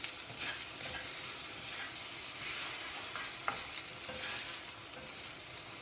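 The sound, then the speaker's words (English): Bamboo spatula stirring food in a sizzling pan, a continuous crackling fry with soft scraping strokes and occasional sharp clicks, steady and moderately quiet with no talk. “Okay, I will not use metal for this. I will use my bamboo spatula.”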